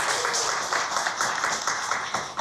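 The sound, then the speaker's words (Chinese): Audience applause at a xiao flute concert as a teacher is welcomed on stage: fairly quiet, dense clapping with a gently pulsing rhythm, steady throughout. “让我们用最热烈的掌声欢迎山崎老师，欢迎您。”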